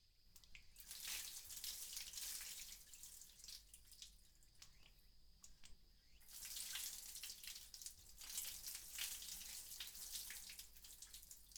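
Water runs from a tap in a steady, hissing rush that eases for a couple of seconds midway, then surges back to full flow until the end.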